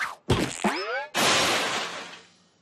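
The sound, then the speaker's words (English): A rock dropped into a regular pie pan holding a squishy, sticky filling, then bouncing out: a sharp whack, a brief ringing metallic twang, then a longer loud clattering rush that gradually fades. “imagine this rock is the big asteroid. Begin test of squishy thing in pan.”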